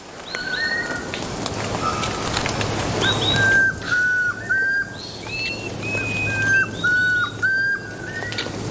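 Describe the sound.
A ground-foraging antthrush sings in a forest during breeding season, giving clear whistled notes repeated many times in short phrases at a fairly high pitch over a faint low hum.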